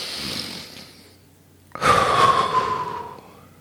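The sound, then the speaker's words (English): A deep breath during a tapping relaxation exercise, heard as a long, loud, airy inhale lasting over a second, after a quieter breathy stretch. “Tap on the side of the hand, take a nice big deep breath.”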